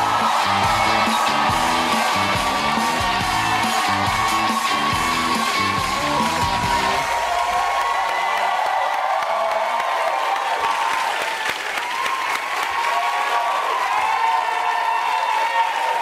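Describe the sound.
Studio audience at a late-night talk show cheering and applauding to welcome James Corden: loud, continuous clapping mixed with whoops and shouts from the crowd, holding strong throughout.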